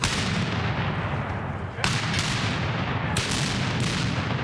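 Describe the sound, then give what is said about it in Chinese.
Cannon fire from 17th-century and American Revolutionary War artillery at a military history reenactment in Virginia: two sharp, loud booms over a heavy, continuous rumbling roar. “17世纪的火炮， 开火！ 还有美国独立战争时期的火炮， 开火！”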